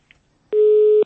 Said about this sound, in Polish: No niestety, ktoś się z nami już rozłączył.